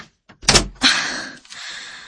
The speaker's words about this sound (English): Close the door.